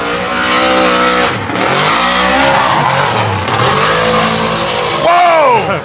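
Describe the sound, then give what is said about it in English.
Dodge Challenger widebody tires squeal and slide for traction under throttle at a drag-racing event, a loud continuous roar of engine and rubber with a wavering, sweeping pitch that surges again near the end. “he was sliding the whole way down. Struggling for traction. Anytime he got on that throttle”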